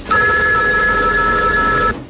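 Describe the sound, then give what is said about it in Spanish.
A telephone bell rings in one continuous, loud, trilling burst of about two seconds, then stops abruptly. No voices are heard. “¿Qué teléfono más raro que se suene y se va?”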